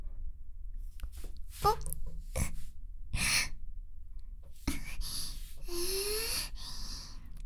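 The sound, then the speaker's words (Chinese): Loud heavy breathing comes in a few sharp gasps and long, drawn-out sighing breaths, separated by short quiet pauses, with a brief voiced sound near the end. “呼吸突然好大声，怎么激动吗？”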